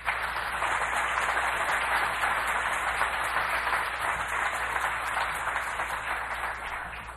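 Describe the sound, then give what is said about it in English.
Audience applause welcomes a speaker, an even, sustained wash of many hands clapping that fades slightly at the end. “So let's take this time and introduce and have a warm welcome from Bob Hoekstra.”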